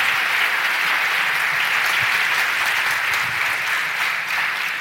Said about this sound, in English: Let's, again, live studio audience, let's give them a big hand.